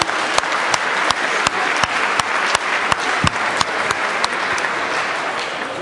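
Dense, loud applause from an audience greets a score in a stage quiz, with steady, even clapping throughout.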